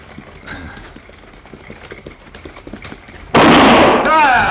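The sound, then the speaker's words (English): A gunshot fired into the air on an Old West desert trail cracks out suddenly after a stretch of clip-clopping hoofbeats, then gives way to a loud, sustained wash of sound. “If I fire again, Morgan, it won't be in the air.”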